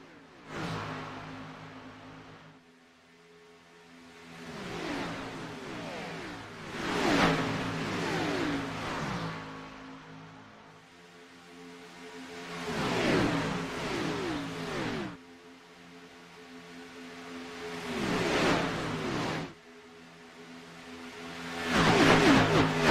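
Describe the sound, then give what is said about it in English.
NASCAR race car engines roar around the track in loud, repeated surges, each swell of revving rising then easing off before the next, with no talk over the engine noise. “Dave pushing him just behind it as we're going to go NASCAR crank it up.”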